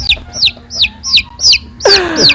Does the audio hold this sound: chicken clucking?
yes